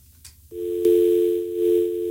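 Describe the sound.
Dial tone after a phone-in caller's line drops: brief faint noise, then a loud steady tone that begins abruptly and holds to the end, with a click early in the tone.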